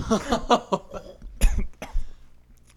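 A person coughs hard after chewing gum slips halfway down the throat on an inhale. A quick run of raspy coughs comes first, followed by two more separate loud hacks with short pauses between them. No talking is heard.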